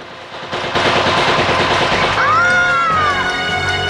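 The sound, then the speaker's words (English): Gunfire and a helicopter missile strike on guards in a James Bond action scene: loud rapid rattling bursts surge in after half a second and continue, joined midway by a whining whistle that bends in pitch. “Tiffany gawks as three guards approach. A chopper fires a missile and knocks them down.”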